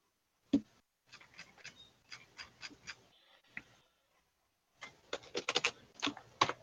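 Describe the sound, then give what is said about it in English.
A name is written down by hand in scratchy, uneven strokes, with a first cluster of quiet scrapes and taps, a short pause, then a denser, louder burst of strokes. “I believe she goes by the name of Sintera Mildra. I'll write this down.”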